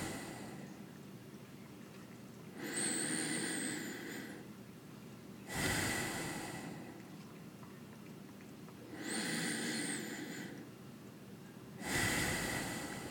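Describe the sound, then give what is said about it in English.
Deep, slow breathing during a guided relaxation exercise: about two full cycles of long, airy inhales and exhales, alternating evenly with brief pauses, soft and with no talk over them. “For the first three breaths, breathe into any physical tension you hold within your body or limbs. Then hold that tension with the breath and release it.”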